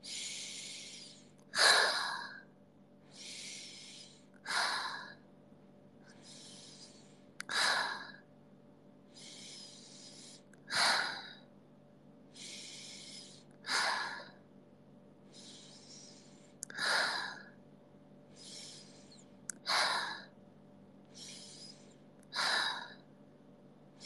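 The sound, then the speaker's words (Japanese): Slow, regular breathing, in through the nose and out through the mouth: softer intakes alternate with louder, breathy exhalations in a steady cycle, repeated many times over a quiet background hum. “呼吸良くないんだよ。鼻から吸って口から出さないと。”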